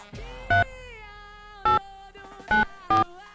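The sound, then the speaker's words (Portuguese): A phone number is dialled on a keypad, producing four short, clear touch-tone beeps spaced unevenly over a steady tonal background. “Vou ligar agora aqui, ó.”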